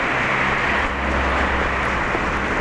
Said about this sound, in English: Cars going every which way.